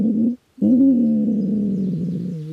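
A wood pigeon's nest call: a loud, low, soft cooing note, a brief break, then a longer sustained hollow coo that wavers slightly before fading.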